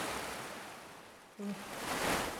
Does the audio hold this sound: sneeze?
no

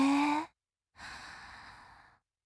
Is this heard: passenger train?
no

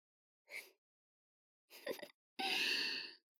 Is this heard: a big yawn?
yes

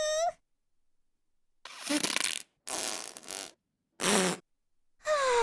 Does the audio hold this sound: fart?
yes

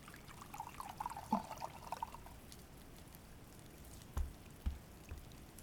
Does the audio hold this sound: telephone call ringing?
no

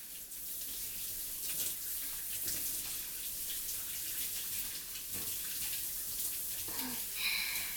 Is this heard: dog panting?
no

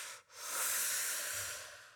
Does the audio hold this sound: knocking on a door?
no

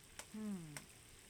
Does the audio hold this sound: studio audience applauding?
no

